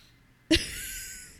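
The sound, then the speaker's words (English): A single abrupt burp with a sharp onset and a short fading tail, alone against quiet background. “Oh my God, I keep burping. Excuse me.”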